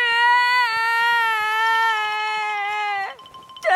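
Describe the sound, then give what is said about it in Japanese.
A frightened bear cub character, Kumanon, from a Japanese children's audio drama bursts into tears with one long, high, sustained crying wail that sags slightly in pitch, then breaks off before a fresh sob at the end. “ガリトラの鋭い爪を見たくまのんくんは怯えきって泣き出してしまいました”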